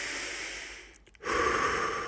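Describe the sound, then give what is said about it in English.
A person takes a deep breath in through the nose and lets it out through the mouth. A long airy inhale gives way to a brief pause, then a louder, fuller whooshing exhale, with no talking. “Deep breath. Come on. In through the nose with me, out through the mouth.”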